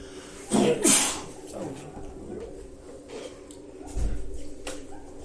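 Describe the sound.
A single sneeze bursts out near the start, sharp and breathy, followed by softer shuffling and low murmurs.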